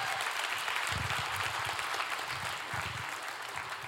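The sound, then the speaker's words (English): Church audience applauding the worship team with a steady round of clapping, moderately quiet and even, easing slightly toward the end. “Let's give our worship team a round of applause one more time.”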